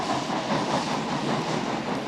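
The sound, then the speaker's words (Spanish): A train arrives at a station held by German soldiers, heard as a loud, steady rumble and broad hiss that holds evenly throughout, without distinct wheel clicks or voices. “El tren de los hombres llega a la estación, tomada por los soldados alemanes.”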